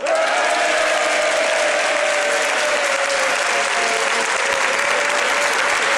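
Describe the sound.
A studio audience at a comedy talk show applauds in a dense, loud, continuous roar of clapping that holds at an even level from start to finish.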